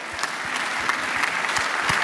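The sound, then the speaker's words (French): Audience applause at a comedy show, with steady, even clapping from many hands sustained at a moderate level throughout. “Et applaudissements, double applaudissement pour Adrien”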